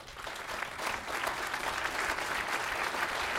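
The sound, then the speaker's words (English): Applause from an audience at a veterans' health care facility event. Many hands clap in a dense, steady roar that thickens slightly early on and then holds evenly to the end, without speech. “I'll clap to that.”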